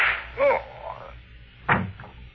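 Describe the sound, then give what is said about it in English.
A gunshot sound effect from a radio drama: a sharp, whip-like crack stands out near the end, with a shorter burst of sound earlier and a low murmur between. “And just one more shot for good measure, to make sure you are really dead.”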